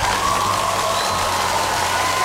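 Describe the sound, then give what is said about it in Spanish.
A crowd applauding and cheering in a sustained, even wash of clapping and voices, fairly loud, with a thin steady whistle-like tone running through it. “Y eso se merece un aplauso”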